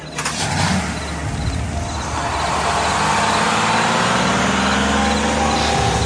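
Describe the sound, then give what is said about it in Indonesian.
A car, used as public transport late at night, starts up and drives off. A broad, loud engine roar builds slightly and then holds steady and continuous with no clear breaks. “Kami pun sepakat dan mobil pun berangkat.”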